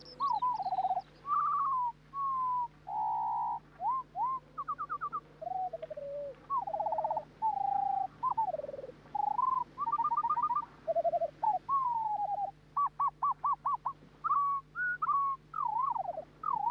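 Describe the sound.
Skylark song slowed to a seventh of its normal speed, turning the rapid song into a long run of drawn-out whistled notes, slurs and trills. Phrases repeat at varied pitches, with no talk.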